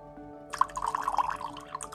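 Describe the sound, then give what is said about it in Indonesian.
Water poured onto cotton wool in a glass: a soft trickling, dripping wetness that begins about halfway through and continues at a low, steady level to the end, with no talk. “Kapasnya masukin. Nih, kapas. Masukin lagi. Kasih air ya.”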